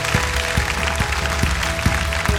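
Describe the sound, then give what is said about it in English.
An audience gives a hand clap of praise, a steady dense mass of clapping over a regular low thudding beat that repeats evenly throughout. “And if you believe he's a good God, would you say amen and give him a hand clap of praise?”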